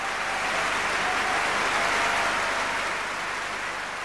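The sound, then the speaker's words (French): Dense, continuous applause from an audience giving an ovation to an opera singer, a steady wash of clapping that stays even in loudness throughout with no distinct voices. “J'ai réussi à m'imposer et le public m'a offert une merveilleuse ovation.”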